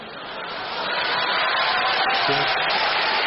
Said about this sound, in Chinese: 观众热烈鼓掌，啪啪啪， 你们就鼓三下是吗？这掌声。这是鼓掌的声吗？